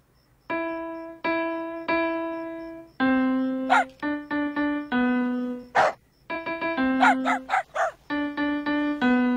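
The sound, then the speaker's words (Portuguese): A dog, a Saint Bernard puppy, barks in many short, tonal yelps with steady pitch. They come in uneven bursts, and a few sharper, higher cracks are mixed in. “Ele é um cachorro, não tem preferências.”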